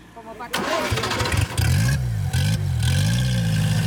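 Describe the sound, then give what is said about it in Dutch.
Engine of a Seat 600 car revving, its pitch swelling and dipping several times over a steady clattering idle, loud throughout. “In Madrid langs een rijtje Seat 600 auto's.”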